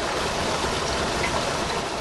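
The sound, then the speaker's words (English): A creek flowing through eastern Kewaunee County toward Lake Michigan makes a steady, even rushing wash of water that fills the whole stretch, without pauses or voices. “Meshek Creek is a stream that flows through eastern Kewaunee County and into Lake Michigan.”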